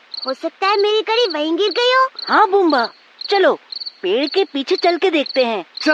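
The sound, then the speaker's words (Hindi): Crickets chirp among trees and plants at night, a steady high pulsing trill that runs under people talking throughout. “ये आवाज तो सचमुच बहुत अच्छी लग रही है, ऐसा लग रहा है जैसे झिंगुर पेड़ पौधों को लोरी गा के सुना रहे हो।”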